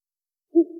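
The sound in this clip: A single owl hoot, a low, hollow tone that starts after half a second of silence and runs to the end.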